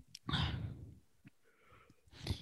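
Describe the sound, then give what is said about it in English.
A person yawns in one long, breathy, voiced exhale lasting nearly a second, followed by softer breaths and a brief rush of air at the end, all fairly quiet. “oh my God, you keep yawning. You're ridiculous. That was my fifth yawn.”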